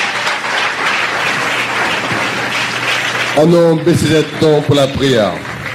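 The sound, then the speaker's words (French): A church audience claps and acclaims, with a dense spread of clapping that continues as raised voices swell over it, punctuated by sharp, distinct claps. “On a acclamé le Seigneur.”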